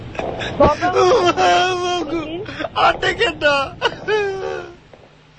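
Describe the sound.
A frightened child cries loudly in repeated broken bursts, with wavering whimpers and wails that rise and fall throughout.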